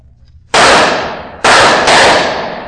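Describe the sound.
Three loud, sharp gunshots are fired toward barrels, the second and third close together. Each crack leaves a long, decaying tail, and no voices are heard.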